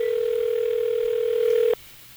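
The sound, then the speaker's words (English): Telephone dial tone as a call is being placed: a steady, loud tone at a single constant pitch that stops abruptly after under two seconds, leaving a faint low hum. “This is great radio. Dialing.”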